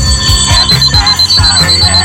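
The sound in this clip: A loud alarm clock rings as a wake-up call, sounding a bright, rapid, repeating pulse of ringing that continues without pause.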